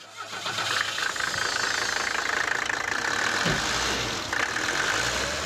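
An old car engine running rough and noisy, shaking hard, low on oil, dirty and smoking, with a suspected fuel pump problem; a loud, steady rumble with a knocking, clattering texture throughout, no voices.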